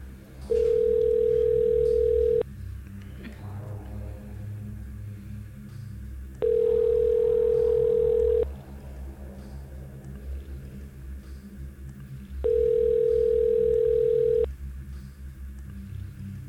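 Telephone line tones after a number is dialed: three long, steady beeps of about two seconds each, evenly spaced by longer pauses, over a constant low rumbling hum.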